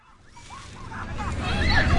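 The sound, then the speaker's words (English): Rushing water from fountain jets bursting up from the ground in downtown Boston on a hot day, with children's high, excited voices calling out as they run through the spray; the water noise grows louder toward the end. “On the Rose Kennedy Greenway, kids are running across the Rings Fountain, where water jets burst out cool water from the ground.”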